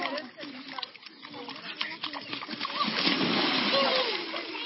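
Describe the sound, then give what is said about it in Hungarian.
Water splashing at the Danube riverbank during a heat dome, a churning slosh that grows fuller and louder in the second half, with people talking in the background. “Ez például a hőkupola alatt a Dunaparton vettem.”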